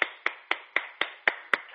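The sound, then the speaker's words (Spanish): Crisp hand clapping from the eight o'clock evening balcony applause in the Gràcia neighbourhood: seven sharp claps in a quick, even rhythm, each one bright and distinct, with no voices. “No, claro, aquí yo también tengo que aplaudir.”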